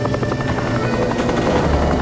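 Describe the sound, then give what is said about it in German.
A propeller-driven flying machine takes off after refuelling, its rotors producing a loud, steady whirring drone with a rapid chopping pulse. The sound is even throughout, with no voices. “Dann kriegen die zwei ihr Benzin. Nachdem Toppi aufgetankt hat, starten sie auch sofort. Alle Systeme laufen.”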